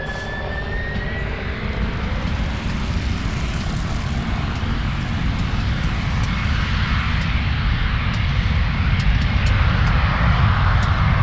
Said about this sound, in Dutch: Er gaat weer een vliegtuig.